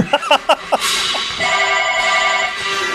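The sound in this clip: Telephone ringing: a few short tonal bursts give way to a steady, bright electronic ring with stacked harmonic tones, held loud and even for about two seconds.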